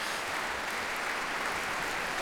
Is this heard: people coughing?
no